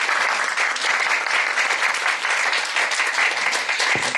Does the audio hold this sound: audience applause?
yes